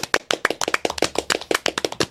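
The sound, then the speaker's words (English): A round of applause from a small group: many sharp, distinct claps in a fast, fairly regular rhythm, bright and crisp throughout. “Let's give a round of applause for Senna.”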